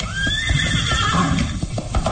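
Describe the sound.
A horse whinnying over the steady clip-clop of its hooves as it walks on, with a long, high, wavering neigh above a continuous, loud hoof rhythm.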